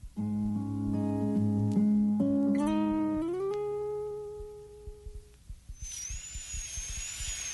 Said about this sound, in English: I'm drilling out the old filling now. Just a little more.